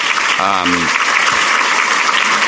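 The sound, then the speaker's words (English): Applause from an audience for elected officials: a steady, dense wash of clapping throughout, with a brief voice heard early on. “If you are here and I mention your name, please raise your hand and let's give them a round of applause.”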